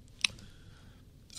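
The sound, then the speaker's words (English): Buckling spring keyboard key being pressed, giving two crisp, sharp clicks spaced about a second apart, each brief and bright with a short snap, separated by near silence. “But in this keyboard, that's what it's supposed to do. When it springs sideways, this little hip check, it closes the switch and the key is typed.”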